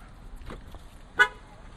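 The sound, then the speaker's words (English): A single short car horn chirp sounds as a car is locked after its door is closed. The brief beep stands alone above a faint, steady background. “Close the door. Lock the car.”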